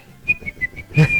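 A person whistles several short, bright notes in quick succession, then holds a longer tone at the end. The whistling is clear and fairly loud, with no talking.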